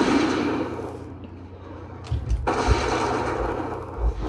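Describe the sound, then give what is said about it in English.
Hunter's arcane, concussive and aimed shots fired at a dragon in a video game: a few thudding impacts over a steady, noisy backdrop of game sound. “Just hitting him with a combination of arcane shot, concussive shot, aim shot.”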